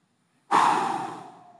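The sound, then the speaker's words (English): An audience at a church service exhales together: one sudden, loud breathy rush that starts abruptly and then slowly fades away over about a second. “I want us to collectively take a breath across all the campuses on three. A big inhale, big exhale.”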